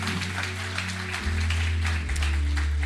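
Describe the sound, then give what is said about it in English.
A church audience applauds for people watching a service online, with steady, dense clapping that holds at an even level throughout over sustained low tones. “Can we put our hands together for all those watching online right now?”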